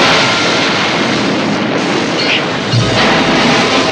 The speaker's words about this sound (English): The mini-sub is buffeted backwards into another mine, which explodes, destroying the sub and cracking the hull of the Sea View.